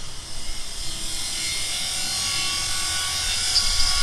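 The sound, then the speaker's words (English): A welding torch cutting through a padlock and heavy chain on a silo door gives a continuous, harsh, high hiss with no breaks, swelling slightly louder toward the end. “The door to the silo is locked with a padlock and heavy chain. Fortunately, I don't go anywhere without my special reporter's welding torch. It comes in handy more than you'd think.”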